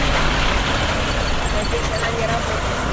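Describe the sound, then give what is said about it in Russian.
A fire engine drives past with a heavy, continuous roar of engine and road noise that stays steady throughout, people talking over it the whole time. “Ой, ой, пожарка.”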